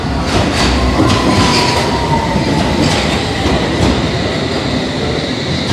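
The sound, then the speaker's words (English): A London Underground tube train arriving at a station: a loud, steady rumble of rolling carriages with a thin metallic wheel squeal running faintly on top, constant for the whole stretch. “That tube coming in means our tube is about to come in.”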